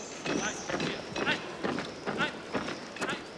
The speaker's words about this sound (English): Later, they walk past marching soldiers wearing gray uniforms and metal helmets.